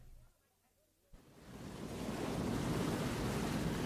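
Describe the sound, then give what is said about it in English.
Ocean waves at sea rise as a broad rushing roar. After a near-silent opening second, a soft thump starts the sound, which swells steadily into a loud, continuous wash of surf that holds to the end. “The waves are higher today.”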